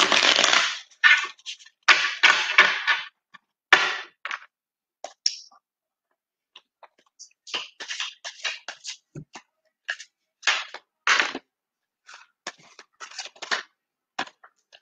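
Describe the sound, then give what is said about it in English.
Shuffling of a new deck of tarot cards: many short, crisp riffling and flicking bursts come in quick clusters, louder at first, then lighter and more scattered after brief pauses. “and that's how we will do the shuffling.”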